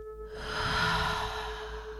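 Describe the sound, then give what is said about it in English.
A single long, breathy exhale through the mouth during a guided breathing exercise, with the jaw relaxed. It is soft and steady, rising slightly and then easing off, over a faint constant tone. “Inhale through your nose. Hold. And exhale through the mouth, relaxing the jaw.”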